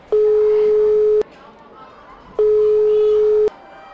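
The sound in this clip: Two long, steady ringback tones of an outgoing phone call, each lasting about a second and separated by a short silent gap, even and mid-pitched with no variation.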